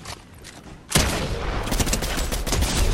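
Gunfire in a video game erupts with a sharp burst about a second in, then continues as dense, rapid volleys of shots over a steady noisy bed until the end.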